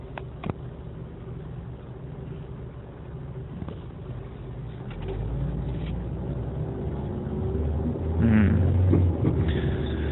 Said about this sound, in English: I like to talk when I drive. I like to talk to myself when I drive